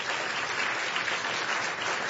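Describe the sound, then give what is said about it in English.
An audience applauds after an author's book talk, dense, steady clapping at an even, fairly loud level that fills the whole moment without breaks or voices on top. “Give him applause.”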